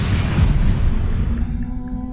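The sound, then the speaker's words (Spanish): Reactor number 4 at the Chernobyl nuclear power plant in the Soviet Union explodes. A dense, loud, low rumbling roar thins out and fades steadily over about two seconds. “El reactor número 4 de la central nuclear de Chernóbil, en la Unión Soviética, explotó.”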